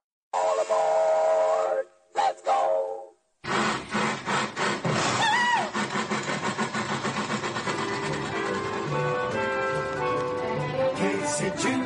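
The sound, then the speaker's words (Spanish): Whistle of the Dumbo train ride at Disneyland: two loud harmonic blasts, then the engine sets off with a rhythmic chugging that keeps pulsing steadily. “Y este tren tan famoso de, Dumbo está también en Disneyland París”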